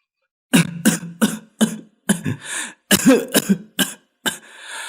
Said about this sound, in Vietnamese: Ông ho lụ khụp.